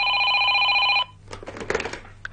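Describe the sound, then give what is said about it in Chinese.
A telephone rings with one sustained, bright electronic trill of about a second. It then cuts off, leaving only faint low noise. “梗系又系嗰个老婆打嚟嘅，都当啲电话费唔使钱啊咁”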